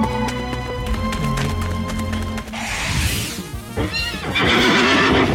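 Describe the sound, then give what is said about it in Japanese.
A horse-like monster in a video game neighs with shrill, rough whinnies in the second half, after a steady tonal stretch of game sound. “サンダーコルトはあのお馬さんの進化系ですね。ユニクラウドの進化系。”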